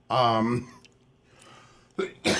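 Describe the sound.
A man with a cough clears his throat with a voiced rasp, then after a quiet pause lets out two short, harsh coughing bursts close together.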